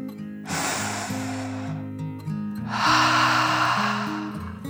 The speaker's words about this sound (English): took one more deep dragon breath, in and out.